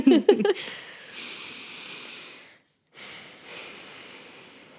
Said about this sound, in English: We're going to take a nice, juicy breath.